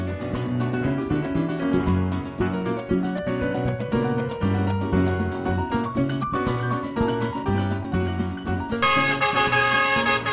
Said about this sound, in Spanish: Ese es el sonido de las gandolas que llegaron con combustible venezolano,